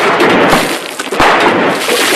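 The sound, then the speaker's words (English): Gunshots are fired at cans: two sharp cracks stand out from a dense, continuous hiss of noise. “Tom throws away Rance's gun and shoots the cans as Rance remains standing there.”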